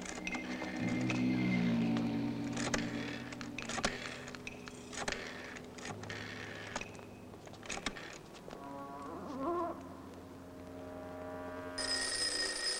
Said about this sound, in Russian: Звонит телефон.